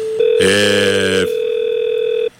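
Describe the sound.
A steady mid-pitched telephone call tone holds for about two seconds, with a harsher buzzing layer over it for a moment near the start before the plain tone carries on alone.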